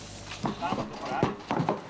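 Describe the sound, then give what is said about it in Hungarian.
Horses' hooves clip-clop as horses and riders arrive for a weekend gallop race event. A few moderate hoof strikes sound beneath people talking. “Nem is mindig túl könnyű lecsalogatni egy lovat a kocsiról, azért folyamatosan érkeznek a lovak és a lovasok a hétvégi vágtára.”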